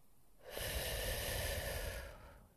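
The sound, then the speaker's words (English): A single deep inhale through the nose during a guided breathing exercise: a soft, steady, airy rush lasting about two seconds that fades out at the end. “As you inhale, you just breathe in through your nose, and you exhale through your lips like you're blowing out candles.”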